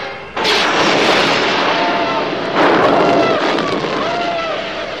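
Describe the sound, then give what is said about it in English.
Laser weapons fire continuously in a space battle as soldiers storm a rebel spacecraft. Dense, loud blasts with whining, sweeping tones overlap, and a fresh surge comes partway through. “In moments, Imperial stormtroopers invade the rebel craft with a blaze of laser”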